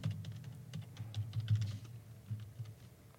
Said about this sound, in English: Just type. I type loud. It's like so forceful.